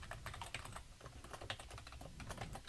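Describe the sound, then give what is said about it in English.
Typing a card verification code on a computer keyboard while filling in an order form: a steady run of many quick, faint key clicks, close together and fairly even, with no voices. “Let's say value and type in CVV just to make it more clear.”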